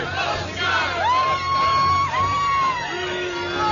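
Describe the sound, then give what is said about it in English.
A theater audience at a film screening loudly shouts and whistles in protest at someone smoking a cigar. Sustained whistle tones ride over a dense, continuous roar of voices. “Somebody is smoking a cigar, and I think the audience is protesting.”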